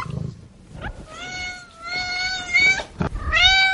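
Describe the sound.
A cat meows a few times in drawn-out, tonal calls that hold a fairly steady pitch, quiet and clear with no talking over them.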